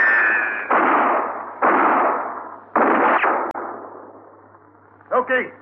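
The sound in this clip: Gunfire in a 1959 radio western shootout, with three loud shots, each trailing a long, fading echo. A brief voice follows after a quieter stretch.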